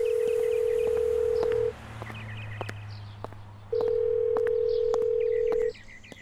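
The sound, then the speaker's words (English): Telephone voicemail tones: two long, steady, mid-pitched beeps of about two seconds each, separated by a gap, with scattered short clicks and faint higher blips around them. “Ah, a voicemail.”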